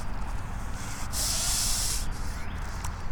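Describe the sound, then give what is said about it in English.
A goose hisses while walking through a billabong: a breathy, roughly one-second hiss rises sharply over steady low background noise, then cuts off. “This is the sound of a goose hissing.”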